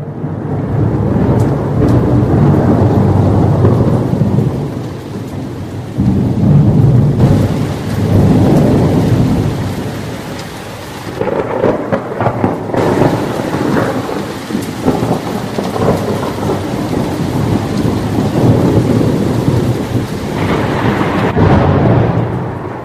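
Heavy rain falls with thunder, a continuous hissing downpour beneath deep, low rumbles that swell and fade several times. No voices are heard.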